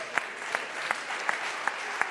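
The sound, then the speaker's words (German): Applause from an audience after a live inflatable life-vest demonstration: a steady wash of clapping with a few sharper claps standing out at a regular beat throughout. “Applaus für Patrick.”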